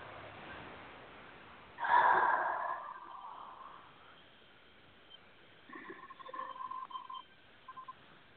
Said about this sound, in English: A nice deep breath.